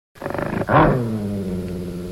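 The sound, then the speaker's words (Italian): A dog's low growl, deep and rough, beginning with a rapid pulsing rumble and then swelling into a louder, sustained snarl that slowly eases off. “fece udire 3 altre volte un sordo ringhio e si slanciò verso la porta, mostrando i denti”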